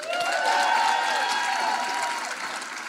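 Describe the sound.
Steady audience applause welcomes a panelist onto a live news-comedy panel show. Many hands clap at a loud, even level, with drawn-out cheering voices riding over the clapping before it eases slightly toward the end.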